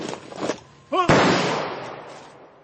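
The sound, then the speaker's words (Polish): A ceremonial rifle salvo fired on command: one sharp, loud volley crack from several rifles at once, with a long decaying rumble, right after a shouted command and brief talk. “Salwą. Salvo!”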